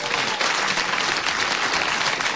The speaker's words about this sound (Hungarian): Zúg a taps